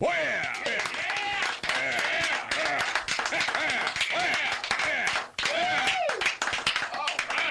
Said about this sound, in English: There you go. The audience approves. Glad to hear it.